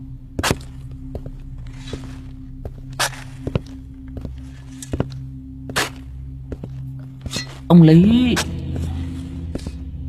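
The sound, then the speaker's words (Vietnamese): Footsteps at midnight on brick-tiled tomb covers in a graveyard of wealthy families' graves: a slow, irregular series of sharp thudding steps over a low steady hum, ending with a brief voice-like sound. “đằng sau lưng của lão vang lên tiếng bước chân lịch bà lịch bịch, dẫm lên trên những cái tấm nấm mộ được người ta cẩn thận ốp gạch ong”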